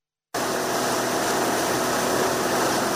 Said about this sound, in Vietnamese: Trên tuyến sông Cầu và khu vực Hồ Núi Cốc, những chuyến cano tuần tra của lực lượng Cảnh sát Đường Thủy liên tục cơ động, tiếp cận các phương tiện đang hoạt động.